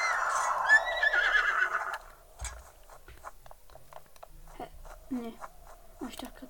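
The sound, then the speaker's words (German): A horse whinnies in a video game. The loud, quavering neigh fills the first two seconds, then gives way to quieter scattered sounds. “Oh, hallo Pferd.”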